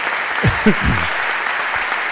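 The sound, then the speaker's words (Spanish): An audience applauds at a public event in Pontevedra, a steady, dense wash of clapping that stays even in loudness from start to finish. “Podéis aplaudir también, ¿eh? Aquí hay para todos.”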